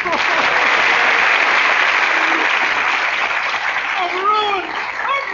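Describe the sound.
A game-show studio audience applauds in a steady, loud burst of clapping. A voice speaks over the applause near the end.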